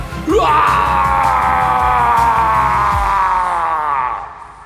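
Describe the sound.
A demon shrieks as a blade strikes it in an open field, the cry echoing: one loud, piercing, sustained scream that sweeps up sharply at the start, holds high and harsh, then fades, over a low rumble.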